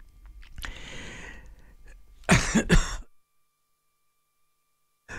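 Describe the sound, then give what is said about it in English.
Someone clears a tickle in the throat with two rough, forceful coughing bursts, coming after a stretch of low background noise and followed by silence. “I got a tickle in the throat there.”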